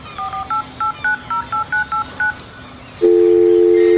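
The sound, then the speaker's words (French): Telephone number being dialed on a keypad: a quick run of short, evenly spaced electronic touch-tone beeps, followed after a brief pause by a loud, steady continuous line tone. “Je vais essayer d'appeler Dipali.”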